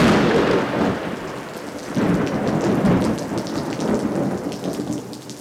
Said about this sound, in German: Ich habe vergessen, das Gewitter zu erwähnen.